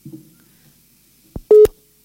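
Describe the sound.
Telephone tone after a dropped call: a faint low buzz, then a couple of sharp clicks and a single short, loud, steady beep before the line falls quiet.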